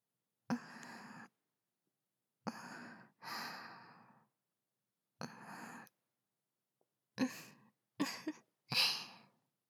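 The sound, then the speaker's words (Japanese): A woman's breathing: seven soft, airy breaths and sighs, each lasting under a second, separated by near silence, with the last few coming closer together. “私の呼吸、そんなに興奮しますか？”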